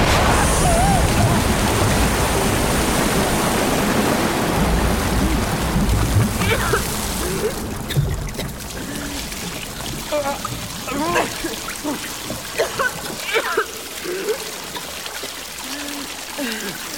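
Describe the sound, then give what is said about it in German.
A flood of water bursts out from behind a rock wall: a loud, steady rushing pour that fills the first several seconds, then drops away as excited voices talk over the fading trickle. “Der Junge vom Meer macht sich am Fels zu schaffen und heraus kommt eine Flut.”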